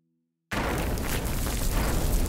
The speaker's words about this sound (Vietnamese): Cánh cổng mở ra với một tiếng động lớn.